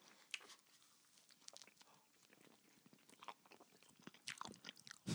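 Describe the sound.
Close, wet chewing and biting of ice cream cake with cookie dough, with many small crunchy clicks and mouth noises in an irregular rhythm. Quiet throughout, with a louder burst at the very end.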